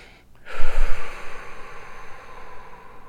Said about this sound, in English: So take a deep breath. In fact, take 3 deep breaths.